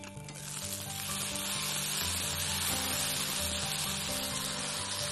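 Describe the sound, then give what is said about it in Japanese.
Potatoes steam-fry in a pan with a pinch of salt, giving a dense, steady sizzle that swells within the first half second and then holds loud and even throughout, over a faint low hum. “ちょっと蒸し焼きにします。”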